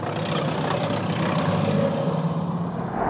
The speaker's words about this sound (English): That's Ukrainian jets flying overhead. Two Ukrainian jets flying very low overhead.